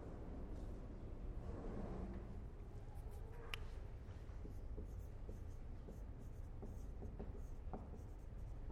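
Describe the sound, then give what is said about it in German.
Handwriting as a lecturer writes out a philosophical term, with faint scratchy pen or chalk strokes coming in short irregular bursts over a constant background noise. “Ich schreibe es auch mal hin, Res Cogitans.”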